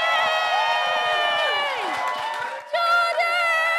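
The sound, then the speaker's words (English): A live audience cheers, whoops and applauds as a comedian is brought on stage. The sound is loud and sustained, with shouted voices rising above the crowd noise. “So please, put your hands together for the brilliant comedian, Jordan Gray!”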